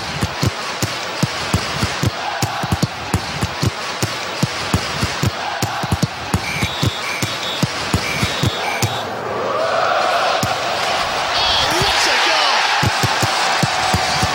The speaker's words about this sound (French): Ils samplent le sport aussi. Ça c'est du foot, une bande promo pour l'Europa League.